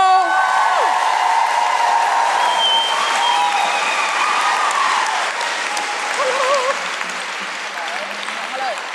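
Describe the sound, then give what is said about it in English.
Audience applause and cheering as a guest is welcomed at a live show, a dense, steady roar of clapping with a few high wavering whoops near the end, easing slightly in level toward the close. “Please put your hands together and make wonderful guilty feminist noises for the fantastic Rose Matafeo.”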